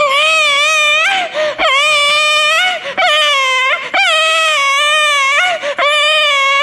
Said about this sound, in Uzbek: Deb turgan ekan, chaqaloq yig'lab qopti.